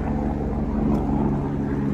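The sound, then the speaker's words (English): Helicopter flying overhead, a loud, steady low drone with a rapid rhythmic thumping pulse underneath that holds constant throughout, with no voices. “Is the sound of the helicopter an acquired taste? Is anyone getting used to it yet?”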